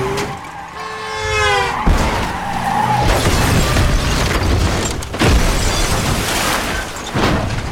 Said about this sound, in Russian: Машина слетела вместе с моста и уперлась передом в воду.